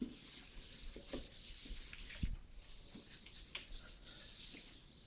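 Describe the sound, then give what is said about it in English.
Soft scratchy rubbing strokes as someone draws a conformal diagram, faint and irregular, with a few small taps over a quiet background hiss. “And in fact, let me draw a conformal diagram.”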